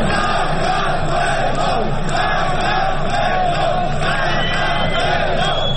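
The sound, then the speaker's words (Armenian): Protesters chant "Georgia" in the evening outside the parliament, a dense and loud mass of shouting voices that holds steady throughout without a break. “Վրաստան, Վրաստան, բացականչում էին ցուցարարները 3 երեկոյան”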